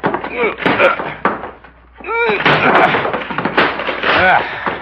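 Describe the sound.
A bathroom door being forced and broken open: heavy bangs and thuds mixed in with loud, urgent men's voices.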